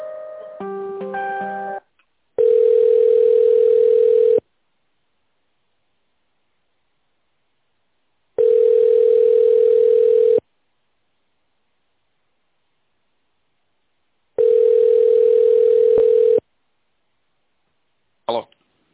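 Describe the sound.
A telephone line tone plays while a call is transferred: three long, steady, mid-pitched beeps with hiss, each about two seconds and separated by silence, after brief talk at the start.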